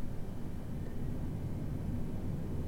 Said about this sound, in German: Liebe Passagiere, ähm, wir bitten Sie, sich jetzt alle anzuschnallen, denn wir werden nun starten. Ich gebe dann Gas, ne?